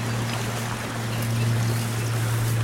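A stream of water flowing by a bridge, heard as a steady, even rushing wash with no distinct events and a low constant hum beneath.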